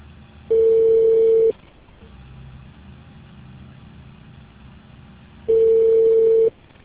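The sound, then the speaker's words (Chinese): Telephone line tone on a call to a mobile user who is busy: two steady, mid-pitched one-second beeps separated by a long silent gap, over a faint low hum. “您拨打的用户正在通话中，已为您转入机主的语音信息。”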